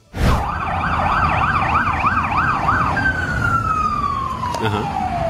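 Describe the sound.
Police car siren wailing in quick rising-and-falling cycles, then switching to one long tone that slowly drops in pitch as it winds down, loud and steady.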